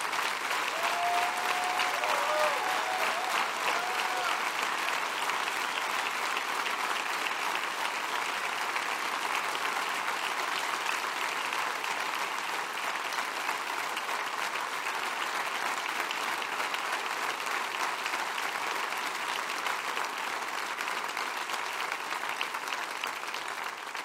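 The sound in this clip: Church audience applauding to welcome a speaker up front: a dense, even wash of clapping that holds steady for the whole stretch without a break.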